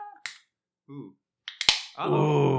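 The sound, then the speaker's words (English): A can of yerba mate tea being cracked open, with a few short clicks and then one sharp, bright pop of the tab. “I am about to crack open some Enlightenment Yerba Mate. Oh, can we hear it?”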